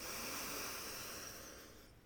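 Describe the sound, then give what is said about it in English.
A deep breath drawn in through the nose during a guided yoga breathing exercise: one long, airy hiss that holds steady for about two seconds and then fades, with no talk. “Good, big breath in through the nose.”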